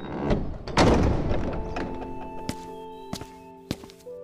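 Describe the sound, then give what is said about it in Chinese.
A door is pushed open into an old, long-unused hall, heavy dull thumps at the start giving way to sustained humming tones punctuated by a few sharp knocks, fairly loud with no voices. “帝子元皱眉，摇了摇头，然后推开门走了进去。”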